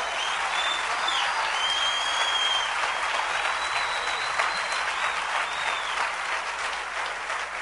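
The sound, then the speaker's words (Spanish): Applause at a church service, a crowd clapping loudly in a thick, continuous patter that stays even throughout the several seconds. “Denle un aplauso bien fuerte al Rey.”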